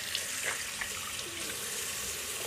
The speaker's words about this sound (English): So I'm going to wash my hands, and my soap is rose water and ivy, and it's foam soap.